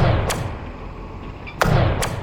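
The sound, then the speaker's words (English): Ice anchors are fired into an interior with three sharp, heavy thuds: one early, then two close together near the end, over a steady low background rumble. “Line up the loader with the drop. Right. Next. Clamper in place. Check. Fire the ice anchors into the interior.”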